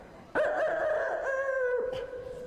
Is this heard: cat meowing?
no

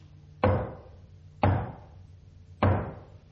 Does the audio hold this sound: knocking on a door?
yes

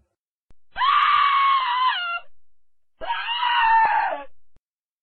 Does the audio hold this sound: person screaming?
yes

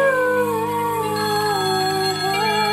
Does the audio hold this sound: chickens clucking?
no

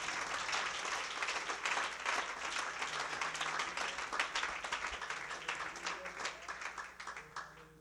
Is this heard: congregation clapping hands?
yes

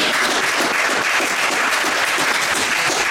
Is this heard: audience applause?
yes

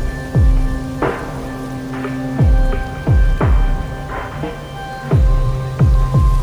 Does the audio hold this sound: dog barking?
no

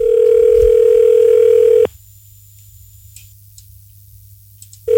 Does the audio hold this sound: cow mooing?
no

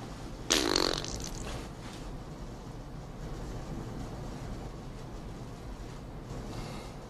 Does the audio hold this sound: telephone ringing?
no

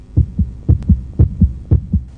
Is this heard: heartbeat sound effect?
yes

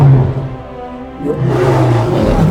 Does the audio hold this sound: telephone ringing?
no

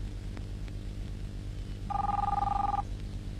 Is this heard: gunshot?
no

